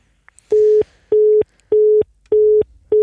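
Telephone line tones sound while a call is being placed: five short, even beeps of one steady mid-pitched tone, separated by equal gaps, like a busy signal. The last beep is cut off and no one speaks.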